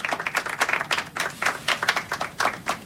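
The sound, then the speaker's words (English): Audience applause welcoming a speaker at an evening health program talk: dense, steady clapping from many hands throughout, with no voices. “Please give her a warm welcome.”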